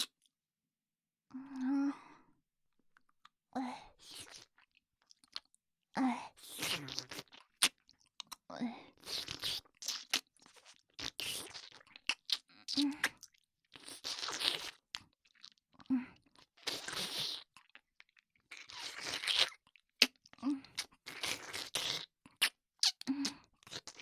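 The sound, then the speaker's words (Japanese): Someone chews partly melted chocolate with close, quiet, moist mouth sounds, forming many irregular soft crunches and smacks separated by brief silences. “一緒にチョコ食べよう。口移しで入れてあげる。”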